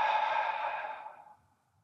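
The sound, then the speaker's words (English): A deep breath is exhaled through the mouth as a single breathy, airy whoosh that starts strong and fades away over about a second and a half. “let's take a breath together, and you can hear me breathe with you. Big breath in. Let it out through your mouth.”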